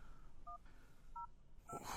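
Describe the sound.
Telephone number being dialed on a keypad: three short, faint two-tone beeps spaced apart over low background hiss, with no talking.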